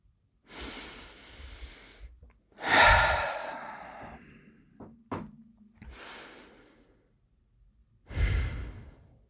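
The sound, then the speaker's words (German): Deep, slow breathing during a guided meditation: two unhurried cycles of air drawn in and released, airy and unvoiced, with a couple of small clicks in the pause between them. “atme ein, zweimal tief ein und aus.”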